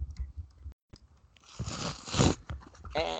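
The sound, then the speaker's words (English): Packaging tears and rips open during an unboxing of a brown box holding a white bubble mailer, with crinkly rustling bursts that swell and grow louder in the second half, after a few soft taps. “Let's unbox it, baby. Oh my god. Get ready for the ASMR of tearing and ripping of packaging, people.”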